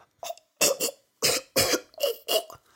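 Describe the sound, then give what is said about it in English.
A voice imitates someone choking on food with a quick run of harsh, strained coughs. The loud bursts come in close succession with brief gaps between them, and there is no speech. “You have to be careful when eating certain kinds of food, as they can get caught in your throat and you will start choking. You go...”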